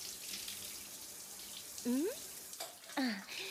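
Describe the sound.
Soft watery washing as a sponge is used to wash someone, a faint steady wash of water with two brief vocal sounds over it.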